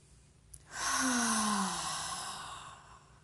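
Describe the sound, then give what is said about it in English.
A single deep breath drawn in, loud and breathy. It begins abruptly, swells, then slowly fades over a few seconds, with no talking. “Okay, we're gonna do three more like that. Inhale. Again, inhale.”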